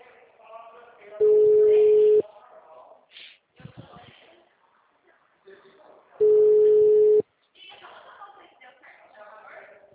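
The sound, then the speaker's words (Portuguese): A telephone ringback tone sounds while a call is placed. Two steady, mid-pitched tones each last about a second, spaced several seconds apart, with quiet talk and rustling in between. “Chamada sendo desviada.”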